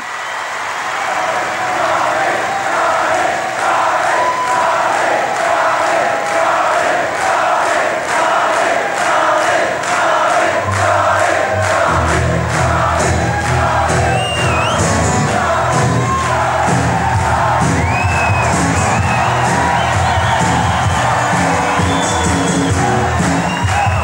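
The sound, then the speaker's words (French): A loud, sustained audience ovation of cheering, whoops and shouts that runs unbroken through the whole clip. A deeper rumbling layer joins partway through and the crowd noise continues at full strength. “en pensant à Charlie et, et sur une autre ovation que celle sur laquelle on a commencé l'émission”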